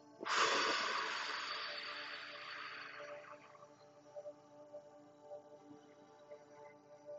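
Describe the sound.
A slow exhale during a grounding breathing exercise for feeling overwhelmed, a soft, airy rush of breath that starts strong and gradually fades over a few seconds into quiet.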